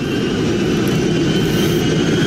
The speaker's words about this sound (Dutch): Het opstijgen. Take off power set.